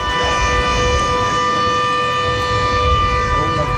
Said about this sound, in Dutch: Zo klonk het haaienalarm dat een paar weken terug hier te horen was